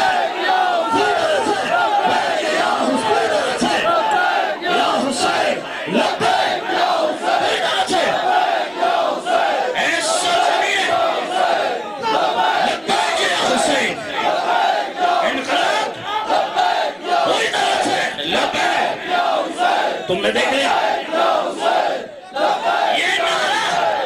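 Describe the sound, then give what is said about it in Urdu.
A large crowd chants the religious slogan Labbaik ya Hussain in loud, dense unison, with a continuous roar of voices filling the whole stretch without pause. “دوسرا نعرہ، جب اہل بیت تمہیں بلائے، اس وقت نعرہ حیدری نہیں، اس وقت لبیک یا حسین، لبیک یا حسین، لبیک یا حسین”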